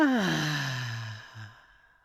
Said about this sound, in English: Take a deep breath in through the nose and out through your mouth with a loud exhale. Breathe in and out.